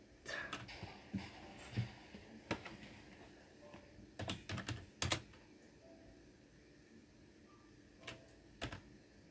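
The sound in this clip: Computer keyboard typing during a Minecraft Bedwars game, heard as bursts of sharp, fast key clicks with short pauses and a dense cluster in the middle, alone without talk.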